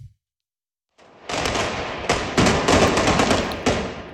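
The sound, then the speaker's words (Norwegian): Police fire tear gas at fleeing demonstrators in La Paz, Bolivia: after a brief silence comes a rapid series of sharp, overlapping bangs and thuds, dense and fairly loud, continuing to the end. “Her hører vi boliviansk politi som skyter tåregass mot demonstranter som legger på sprang i hovedstaden La Paz.”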